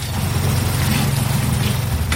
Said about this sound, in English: Back in Oderemo town, a water tanker pumps water into a tank outside Mrs. Beckley's apartment